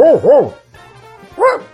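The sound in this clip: A human voice imitates a dog barking, as done by a veteran sound-effects performer: two quick, yelping barks, a short pause, then one more bark, each with a rising-then-falling pitch.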